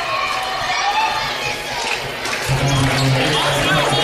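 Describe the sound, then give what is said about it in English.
Basketball free throw clanking twice off the front of the rim and missing, two quick bounces under crowd noise and voices talking. “Double bounce off the front end of the rim, no good.”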